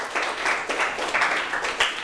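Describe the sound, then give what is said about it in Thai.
Students in a classroom applaud a classmate: fairly faint, continuous clapping from many hands that swells and eases in loose pulses. “ถูกต้องครับปรบมือให้เพื่อนหน่อยครับ”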